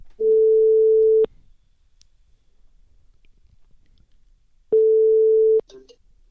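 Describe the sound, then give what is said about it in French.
The ringing tone of an outgoing phone call while waiting for an answer: two steady, single-pitched tones, each about a second long, separated by a long silence. “Alors on l'appelle, ça ne sonne pas encore, mais ça devrait pas tarder.”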